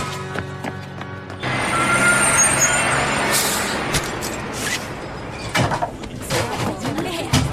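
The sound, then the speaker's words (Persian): A bus arrives with a deep, heavy engine rumble and a sharp hiss of air brakes, followed by scattered clanks and knocks as it settles to a halt. “اتوبوس بچه ها داره میرسه.”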